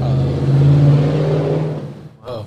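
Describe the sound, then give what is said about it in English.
A big truck drives past, its loud, low engine drone holding steady before dropping away near the end. “Big truck.”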